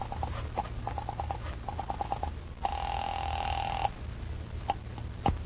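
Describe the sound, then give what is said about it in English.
A telephone rings after a call is dialed to the guard at a gate. Several short, high beeps come first, then one steady, sustained ringing tone, heard alone with no talk. “You wait another half minute, and then pick up the phone and call the guard at the gate.”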